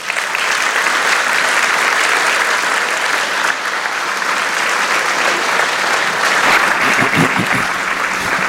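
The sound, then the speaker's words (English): A church audience applauds to welcome a guest speaker with steady, dense clapping that stays loud and even throughout, with no pauses or voices standing out. “So I want you all to put your hands together, Impact and Forest Hill. Now, Forest Hill, and welcome David Chadwick.”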